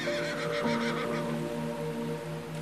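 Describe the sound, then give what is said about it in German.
Dark brown unicorns neighing excitedly at a beach, heard as a horse-like whinny: one long, quivering, fairly faint neigh that runs through the whole stretch with no talking. “Aufgeregt wiehern sie euch entgegen, während ihr an den Strand schwimmt”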